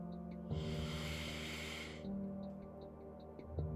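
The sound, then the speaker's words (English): A deep breath is drawn in as a soft, airy hiss lasting about a second and a half, faint over a low, steady background hum. “Take a deep breath”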